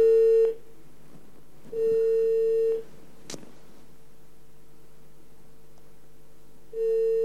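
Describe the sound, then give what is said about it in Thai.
Ringback tone on a telephone call: long, steady mid-pitched beeps separated by lengthy silences, three bursts in all, with a single sharp click between the second and third. “กดเบอร์เลยครับ”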